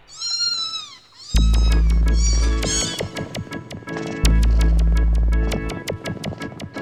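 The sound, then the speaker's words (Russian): A cat meows a few times at the start, then rhythmic music with a steady pulsing beat and heavy bass takes over. “Кошка.”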